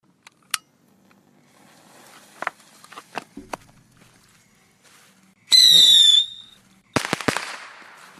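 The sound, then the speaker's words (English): A firework being lit and set off: a few faint clicks, then a loud, shrill whistle lasting about a second with slightly falling pitch, followed by a sharp burst of crackling pops. “Hold on a second. Let me light off this firework over here.”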